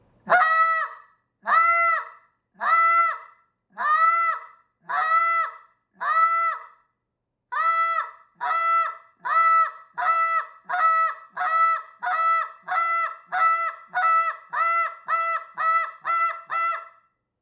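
Goose honks blown on a hand-held goose call: six slow, evenly spaced honks, a short pause, then a long run of honks that grows steadily faster and closer together. The call sounds alone, at moderate loudness.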